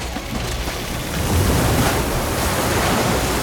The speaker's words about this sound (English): He goes over to where water is indeed pouring in, flooding the corridor.